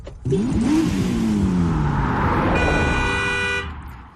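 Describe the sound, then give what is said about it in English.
A car engine revs up and then eases back, followed by a steady, bright horn blast held for about a second before the sound cuts off. “That is the sound of a vehicle.”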